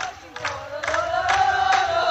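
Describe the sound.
A football crowd in the stands cheers after Manlleu's win, with rising waves of shouting and a few louder surges building into a continuous roar.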